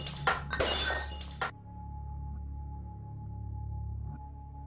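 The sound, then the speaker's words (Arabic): A glass mirror falling and shattering in a bathroom sink: a sharp, bright burst of breaking glass lasting just over a second, then fading into a faint, steady low hum. “فتحت الكتاب، مجرد ما فتحت سمعت صوت كسر ازاز.”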